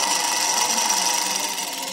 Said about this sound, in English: member-owned machines like Vivian's 1946 Singer Featherweight. Doesn't that sound sweet?